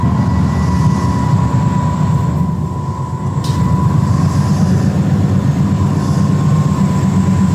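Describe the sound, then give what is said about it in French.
Loud, constant machine drone inside the 460 electric locomotive, in the middle of its red transformer: a dense low rumble with a steady tonal hum on top, dipping briefly midway and then resuming unchanged, with no voices. “On est vraiment ici au centre de la locomotive 460, au milieu du transformateur rouge.”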